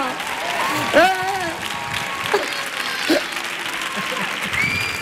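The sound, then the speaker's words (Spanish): Standing-ovation applause from the audience at Auditorio Cartuja, a steady, continuous wash of clapping throughout, beneath a man's excited talking. “Maravilla, el público en pie, sí señor, y no ha hecho nada, y no ha hecho nada todavía, y no ha hecho nada, ahí está la gente ya en pie,”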